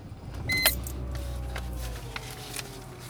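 A car: a low, steady motor rumble with a brief whir and a few light clicks.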